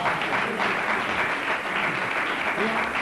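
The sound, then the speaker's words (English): Audience applause at a church service, a steady, dense wash of clapping that holds at an even loudness throughout, with voices mixed in. “Give her another round of”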